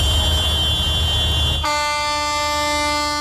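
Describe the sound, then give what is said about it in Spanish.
Dozens of tractors at a farmers' drought protest outside the Basque government headquarters in Vitoria blare their horns in a loud, continuous chorus over a low engine rumble. Midway the sound shifts to brighter, layered sustained horn tones. “A esta hora, varias decenas de tractores se manifiestan así frente a la sede del Gobierno vasco.”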